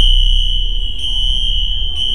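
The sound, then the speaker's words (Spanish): Hospital alarms sound as a loud, continuous, high-pitched electronic tone that wavers slightly and briefly dips about once a second over a low rumble. “las alarmas del hospital comenzaron a sonar.”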